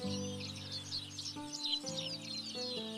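Birds chirp and tweet in a palace front yard where an outdoor breakfast is held, with many quick, high, faint calls over a soft melodic tone that changes pitch in steps.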